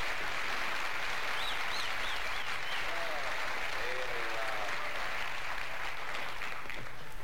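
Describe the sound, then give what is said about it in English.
Live audience applause at a comedy storytelling performance, dense steady clapping that fills the whole stretch at a fairly loud, even level. “He usually does it to a live audience. You can hear the audience interaction.”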